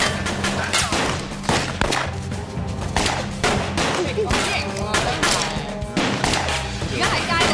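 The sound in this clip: Gunfire, likely from a video game: loud, dense bursts of rapid shots in an unbroken barrage with heavy thuds, and voices mixed in.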